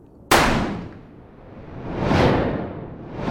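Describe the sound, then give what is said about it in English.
A single sharp pistol shot cracks out and decays into a long tail, followed by a rushing whoosh that swells and fades. “you watch her, seemingly in slow motion, as she levels her weapon at you and pulls the trigger.”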